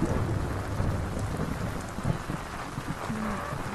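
An approaching thunderstorm: steady heavy rain hisses throughout while low, rolling thunder rumbles beneath it, with no voices.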